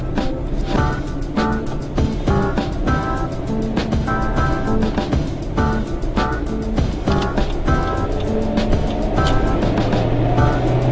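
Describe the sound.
Steady engine and road noise from a car driving in traffic behind a driving-school car, a loud continuous rumble that runs unbroken throughout.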